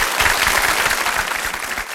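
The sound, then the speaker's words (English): Applause from many hands, dense and even, holding a steady loudness from start to finish with no voices over it. “And the more that you reward yourself with visualize a little gold star, applause,”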